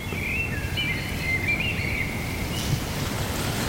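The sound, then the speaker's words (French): A tawny owl calls in the distance as a thin, wavering high whistle that rises and dips for about a second and a half, faint over a steady rushing, wind-like background. “Il y a la chouette ulotte qui se met à chanter au loin, je l'ai entendu.”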